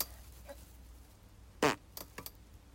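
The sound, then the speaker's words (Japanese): A single short, fairly faint fart bursts out midway through otherwise quiet surroundings, with a few small faint sounds after it. “おなら出ます。出します。”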